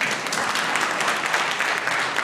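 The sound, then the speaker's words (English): Audience applause during a panel discussion, a continuous, thick patter of many hands clapping that stays steady and fairly loud throughout. “Oh, you're allowed to applaud.”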